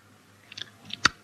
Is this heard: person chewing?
yes